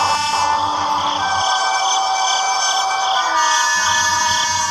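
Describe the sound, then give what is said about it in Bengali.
A train passing near a marshy field at night, heard as a continuous loud, dense mechanical roar with whining tonal hums running through it, steady throughout and without talk. “এমনি সময় কাছেই যেন ট্রেনের শব্দ শুনতে পেলেন দূর থেকে শব্দটা এগিয়ে এসে মাটি কাঁপিয়ে পিছনের দিকে মিলিয়ে গেল”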